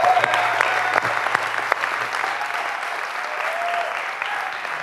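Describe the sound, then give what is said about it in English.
A church audience applauds the tech team with steady, dense clapping that holds at an even loudness for about five seconds over a low hum. “So let's just give it up for these guys back here.”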